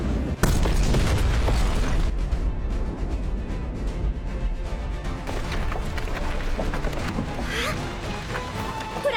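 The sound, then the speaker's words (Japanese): A Grand Slam bomb explodes against a wall in a video game: a sudden heavy boom near the start, then a long, dense rumbling roar with clattering texture that stays loud to the end. “始めるぞ、ジェットン爆弾グランドスラムだ。”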